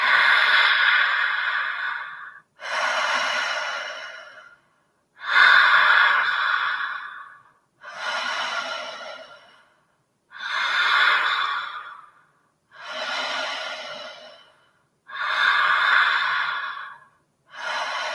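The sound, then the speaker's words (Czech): Deep breaths are drawn through the open mouth, each a deep inhale followed by a gentle exhale. The long, airy, hissing breaths repeat in a slow, even rhythm with short silent gaps between them. “Otevřít ústa a pořádně nadechneme. Hluboký nádech, jemný výdech.”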